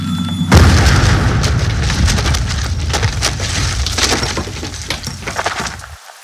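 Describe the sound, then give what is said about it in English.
A .50 caliber round fired point-blank into a house wall hits with a loud sudden blast, followed by several seconds of crashing, splintering and breaking debris with glassy crunches, then stops abruptly. “Ever wonder what a 50 caliber round do to a house wall from point-blank range?”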